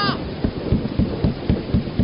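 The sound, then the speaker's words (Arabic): Rain pours steadily, with a regular series of low thumps repeating about every quarter second throughout. “المطر فوق راسي”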